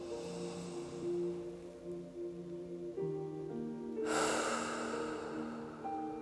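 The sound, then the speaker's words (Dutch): A deep breath is drawn in slowly through the nose, a soft airy rush that swells midway and continues quietly over faint, sustained background tones. “als je lichaam het aangeeft, mag je ook even diep inademhalen door je neus.”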